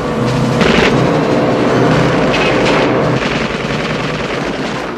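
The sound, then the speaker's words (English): Dense gunfire from a film scene at sea, with bullets striking a boat's gas tank during a storm. The noise is loud, continuous and crackling, easing slightly toward the end. “Sparks fly as bullets hit Jack's gas tank. A sheet of fire races across the stern.”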